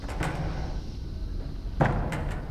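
A heavy metal door in a workshop closes with a dull, solid thud, with a few lighter knocks around it over a low, steady background rumble.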